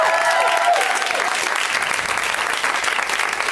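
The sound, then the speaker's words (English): An audience breaks into dense, loud applause with a few whoops near the start. The clapping holds steady for the whole stretch. “Let's hear it for Ryan. And Hannah's around here somewhere over there. Producer Hannah.”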